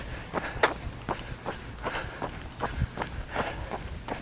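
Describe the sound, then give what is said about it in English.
Footsteps of a person running at about an 11-minute-per-mile pace: many soft, even footfalls in a steady rhythm of roughly two per second, with a constant thin high-pitched tone in the background. “I think I'm running a little too fast here. That's what it is. The moment in time says 11 minutes per mile. Maybe that's why I'm a little out of breath.”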